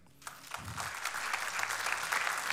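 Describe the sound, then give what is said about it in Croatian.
Audience applause after thanks to the musicians, swelling quickly out of a brief quiet moment into steady, dense clapping that holds at a moderate level. “Moram jedan veliki aplauz.”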